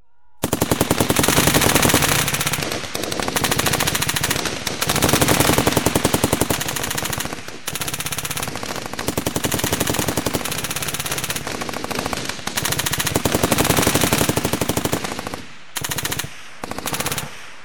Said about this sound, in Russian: Бойцы выученно бросились на землю и молниеносно открыли огонь по блоку из всех стволов.